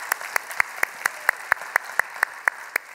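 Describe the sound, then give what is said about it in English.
Audience applause breaks out as the crowd is asked to welcome online viewers and the Stone Canyon family: steady, evenly timed sharp claps, about a dozen in quick regular rhythm over a soft wash of background noise. “put your hands together and let's welcome in our online viewers and our Stone Canyon family as well.”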